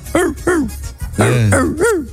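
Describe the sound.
A human voice imitates a dog barking, producing a few short, yelping barks with rising-then-falling pitch and a longer, rougher bark in the middle.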